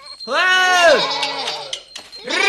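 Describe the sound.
A goat among a flock of sheep bleats in one long, wavering, richly harmonic call that drops in pitch at its end. Quieter noise follows, and another call begins at the close.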